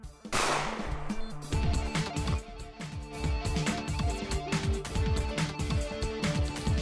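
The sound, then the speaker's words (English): A gunshot fired at a lean-to in a video game, one sharp blast at the start followed by dense, rapid rhythmic sounds that carry on throughout. “I shoot the lean-to again.”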